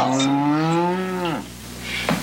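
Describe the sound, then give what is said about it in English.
A cow lets out one loud, deep moo that holds steady and slightly rises, then drops off abruptly, followed by quieter background noise. “John Boy, cow's waiting. I'm coming, Mother. That cow is really waiting.”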